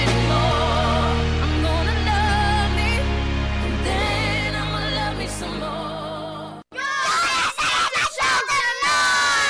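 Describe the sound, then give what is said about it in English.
Charlton football club mascots shout loudly after a match: forceful group yelling and screaming, with a sustained full-voiced passage first and then a short pause before a string of choppy, energetic shouts. “followed up by some very shouty mascots”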